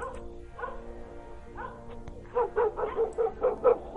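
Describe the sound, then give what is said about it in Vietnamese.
A dog barks at night with strange barking that keeps people from sleeping: a few whining, falling yelps, then a quick, rhythmic series of sharp, loud barks. “Tiếng chó sủa vẫn cứ quanh quẩn ở bên tai của bọn họ, làm cho bọn họ không có yên lòng”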